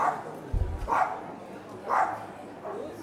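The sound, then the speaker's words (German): A small dog sitting in a pram at an esoteric fair barks a few short, sharp, high yips at uneven intervals over a faint background hum. “Ah, hier werden auch Hunde offensichtlich zugelassen. Ein Hund in einem Kinderwagen übrigens, just saying.”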